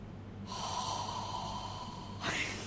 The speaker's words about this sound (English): That was me exhaling.